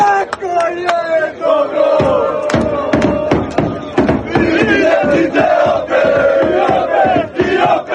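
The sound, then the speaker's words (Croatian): Croatian football fans singing and chanting together after their team's defeat, a loud massed chant punctuated by many sharp rhythmic beats that keep time throughout. “srebro bi se trebalo smatrati velikim uspjehom, a to su dokazali i hrvatski navijači koji su i nakon poraza nastavili pjevati.”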